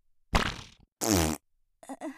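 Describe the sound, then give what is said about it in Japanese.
A woman's fart comes in a few raspy, buzzing bursts, one a fuller tonal blast, separated by short silences and ending in two brief puffs. “こんな腸内環境を終わってるうんこ臭いおならでいいならいくらでもこいてあげる。ほーら。”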